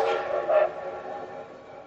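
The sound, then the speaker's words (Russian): A steam locomotive's whistle gives a mournful, breathy howl that starts loud and slowly fades across the whole brief clip, with faint rail noise beneath it. “Тоскливый вой паровозного гудка легко перекрыл все остальные звуки, возвысился и резко умолк”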